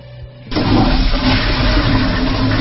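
A toilet flush bursts in after a quiet half second and continues as a loud, steady rush of water to the end.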